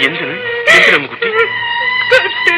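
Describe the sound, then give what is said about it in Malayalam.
A person crying, with wavering, high whimpering sobs and wails rising and falling in pitch. Louder bursts come in the middle and near the end. “പിന്നെ എന്തായിരിക്കും ഇങ്ങനെ കരയുന്നത്?”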